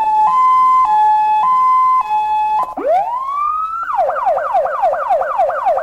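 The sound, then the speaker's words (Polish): A volunteer fire brigade engine's siren is tested after repair: loud alternating two-tone hi-lo notes, then a rising wail that switches into a rapid, repeating yelp. “Syrena działa? Wszystko działa. A możemy sprawdzić, jak działa?”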